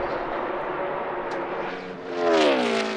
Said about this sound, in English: here he is driving away with just a half a lap to go to bring home a Vegas win